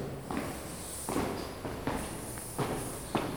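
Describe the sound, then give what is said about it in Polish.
Footsteps walking down stairs: several soft, muffled thuds in an uneven rhythm, each a short knock over a quiet background with no voices. “Dobra, trzeba zejść ze schodów.”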